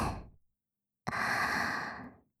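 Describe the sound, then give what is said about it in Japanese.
A person takes a deep breath: a short breath trails off, then after a pause one long, airy, steady breath lasts about a second before fading. No other sound is heard. “もう一回、息を大きく吸って”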